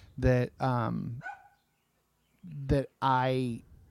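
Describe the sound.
A dog barks in a few drawn-out, tonal bursts: two close together, a pause, then two more. The barks are loud and stand alone.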